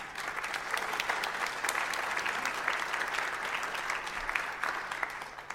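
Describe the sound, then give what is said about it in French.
Audience applause at an education forum honoring an organizer, a sustained, even wash of many hands clapping, fairly soft, with a faint low hum underneath and no voices. “à Janine, qu'on a déjà applaudi ce matin, mais qui mérite vraiment beaucoup d'applaudissements”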